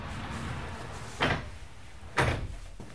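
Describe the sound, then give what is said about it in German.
A sliding door is opened in a building physics laboratory, heard as two short, rushing scrapes about a second apart over a quiet, low background hum. “Der Bauphysiker öffnet eine Schiebetür und zieht die Abdeckung von einem riesigen runden Spiegel.”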